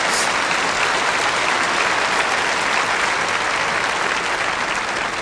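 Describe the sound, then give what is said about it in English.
Audience applause, dense and even clapping from many hands that stays loud and constant for about five seconds with no speech over it. “he is truly a man of God, and you can applaud that, yes.”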